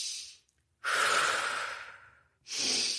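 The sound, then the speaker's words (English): Soft, airy breathing from a gentle yoga breathing-with-movement demonstration. One long, hissing breath swells and slowly tapers off, then a brief pause, then a second breath begins. No one talks. “And the teacher's like, all right, let's breathe with movement.”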